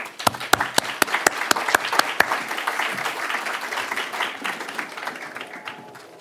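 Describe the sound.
Audience applause welcoming a speaker at a lecture on religious liberty, beginning with several sharp distinct claps that merge into a dense wash before tapering off at the end.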